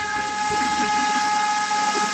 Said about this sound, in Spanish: Con este pito, les deseo un excelente día.